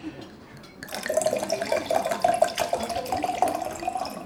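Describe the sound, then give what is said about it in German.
Wine is poured from a bottle into a glass at a meal: a steady liquid trickle with a faint ringing tone that holds on, interrupted by small drips and splashes. “Darf ich Ihnen Wein nachschenken? Ja, bitte.”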